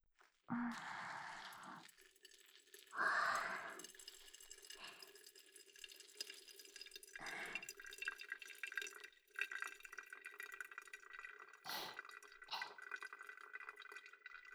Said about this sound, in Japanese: ゆーくり円を描きながらお湯を注いでいく。